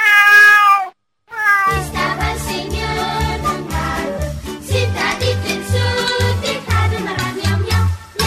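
A domestic cat lets out one clear, drawn-out meow, followed by a brief silence and then steady music.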